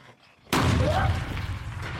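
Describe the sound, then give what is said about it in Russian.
A single gunshot in a film, fired into a creature's head, bursts out sharply after a quiet moment and leaves a long, booming decay that fades slowly. “Бар стреляет в голову существу.”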